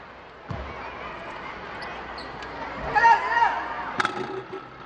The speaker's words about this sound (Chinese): 球响了一下才掉进篮筐里面。